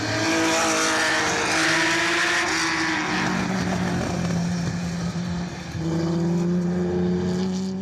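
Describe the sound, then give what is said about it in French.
Peugeot 505 Turbo race car, raced in 1985, driving on the Montlhéry circuit; its engine gives a loud, sustained drone with a few shifts in pitch and a brief dip near the end, with no talking. “C'est parti sur le circuit de Montréry pour découvrir cette 505 turbo de Jean-Pierre Valcher, avec laquelle il a roulé en 1985, ici même à Montléry.”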